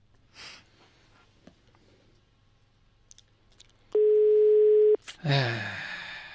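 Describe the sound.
Telephone ringing on a call that goes unanswered: a single steady ring tone about a second long follows a few faint clicks, and a burst of noise comes right after it.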